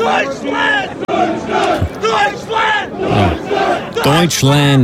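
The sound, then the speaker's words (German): Crowd cheering on a team in American style: many voices shouting and chanting together in loud, repeated rhythmic bursts with strong pitched vocal tones, carrying through without a break. “Ja, man muss sie halt ein bisschen anfeuern. Und in Amerika klingt das ein bisschen so.”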